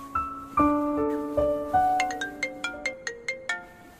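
A mobile phone ringtone plays an electronic melody, first a few sustained tones stepping between pitches, then a quick series of short, evenly spaced high beeps, loud and alone.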